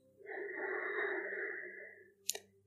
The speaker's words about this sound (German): atme noch einmal tief durch die Nase ein